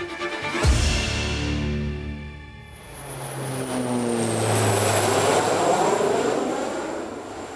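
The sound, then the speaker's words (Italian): Airplane engine roaring on the tarmac at Dallas airport in suffocating heat: a loud, continuous drone with a high, thin whine and low tonal hums that shift in pitch, with no voices. “Michael O'Leary arriva all'aeroporto di Dallas. Il caldo è soffocante. Le scarpe sembrano sprofondare nell'asfalto della pista.”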